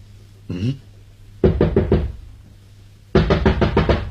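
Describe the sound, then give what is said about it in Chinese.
Knocking on a door comes in two separate bursts of a few sharp raps each, with a short pause between them. A brief softer sound comes before the first burst. “敲门。”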